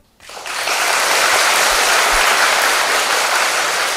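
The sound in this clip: Audience applause during a Buddhist nun's dharma talk: a dense wash of clapping that swells quickly from silence and holds steady and loud to the end.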